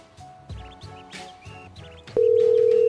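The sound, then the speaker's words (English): A phone call being placed to a Bob Evans restaurant: a run of short, shifting electronic tones, then a loud, steady held tone that lasts to the end. “I'm going to call one more time just because.”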